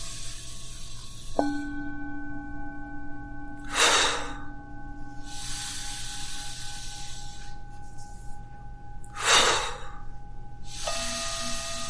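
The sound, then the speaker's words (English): Two slow, airy inhalations, each a soft rushing breath drawn in during a guided breathing exercise, set over quiet sustained tones. “Let's start again. Breathe in.”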